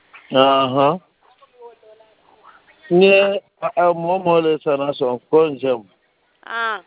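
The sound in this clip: A lamb bleats again and again. The cries are quavering and fairly high, with a long pause after the first one and then a quick run of shorter calls. Faint, softer sounds fill the quiet gap.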